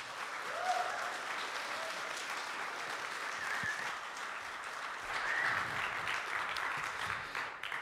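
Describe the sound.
Steady applause from an audience at a church service welcoming a youth intern up to preach, a continuous even wash of clapping that holds for about eight seconds.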